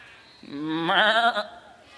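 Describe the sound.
A sheep gives a single bleat, a wavering, nasal, harmonic cry lasting about a second that swells in the middle and then fades, heard alone against quiet background.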